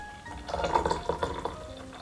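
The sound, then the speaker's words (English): Hot water at 100 degrees Celsius poured into a large teacup holding tea leaves, a faint, gurgling trickle lasting about a second and a half, with soft splashy pulses. “we will pour our 100 degree Celsius water into our large teacup with leaves.”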